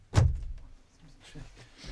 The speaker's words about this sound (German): Soll ich die Tür zu machen?